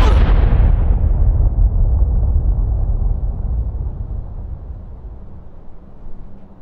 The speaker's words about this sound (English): Detonate the charges!